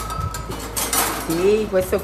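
Cooking utensils being handled in a restaurant kitchen in the small town of Tarquinia, north of Rome: loud metallic clinks and clatters of pans and cutlery, with a short ringing tone near the end.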